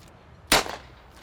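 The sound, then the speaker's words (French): A single gunshot rings out as one sharp, loud crack with a brief ringing tail, standing alone against low background hiss. “Oh, qu'il y a des coups de feu.”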